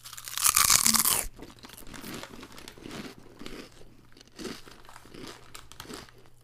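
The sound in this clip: Someone eats crunchy chips that are sweet like vanilla wafers and came broken in the bag. A loud crinkle of the bag comes first, then softer, steady crunching and chewing continues, with no talking.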